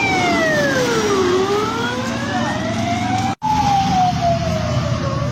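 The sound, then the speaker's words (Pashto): Ambulance sirens passing near a bus stop in Kabul wail loudly and continuously. The tone sweeps downward, then climbs again, with a brief dropout just past the midpoint. “امبولانسونه د یو بس تمځای ته نږدې په چټکۍ سره د تیرېدو په حال کې لیدل کیږي.”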